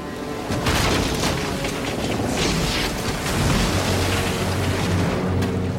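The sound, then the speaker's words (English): A schooner rams and rides over a small blue and white ketch during a sailing race. A loud, dense crash with a deep boom and rushing water noise runs continuously throughout, with a steady low rumble toward the end and no talk. “The wheel spins and the vessel turns into the ketch and sails over it.”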